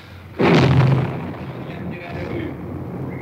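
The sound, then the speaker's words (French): A single loud blast of gunfire as a tank fires grapeshot at a wall, booming sharply and then decaying into a long rumbling tail. “Il tire à la mitraille, vous entendez les balles qui claquent contre le mur.”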